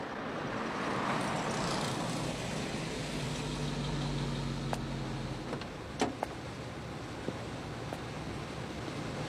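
Car engine and road noise from a moving car in a dubbed film scene, a steady low rumble with a few brief clicks and knocks near the end.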